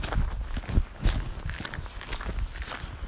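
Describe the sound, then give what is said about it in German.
Footsteps crunch along a narrow gravel path between a meadow, woodland and a stream, in a steady, uneven series of scuffing steps of moderate loudness, with no talking. “Ich laufe und laufe und laufe und laufe.”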